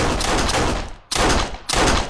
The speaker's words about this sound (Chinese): 一道枪响，五颗子弹依次从枪口中射出